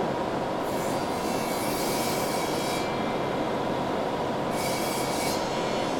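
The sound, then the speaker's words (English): A grinder takes the rough edges off a piece of metal, producing a continuous loud, harsh rasp with a steady high-pitched squeal that runs unbroken throughout. “Grind the rough edges off over here.”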